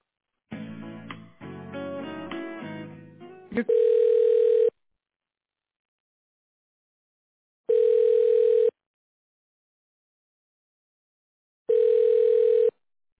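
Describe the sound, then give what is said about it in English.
Telephone tones play as a call is transferred to voicemail. A short jumble of mixed tones comes first, then three evenly spaced, steady beeps about a second long, with silence between them. “May I put you through to his voicemail?”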